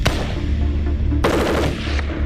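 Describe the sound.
A Chinese QJB-201 light machine gun fires loud, continuous automatic bursts. The dense, rapid cracks roll together into a harsh, sustained roar, with a fresh burst kicking in about halfway through.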